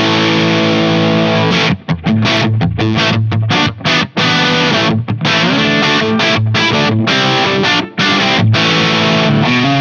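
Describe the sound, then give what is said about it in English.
Electric guitar through an overdrive pedal on the bridge pickup, amp set clean, guitar volume at 10 and drive at 1: a loud, thick, distorted chord riff that chugs along with short choppy breaks between strums. “It's very, very loud. There's tons of headroom on board. I've used this in terms of just using it standard as my go-to overdrive,”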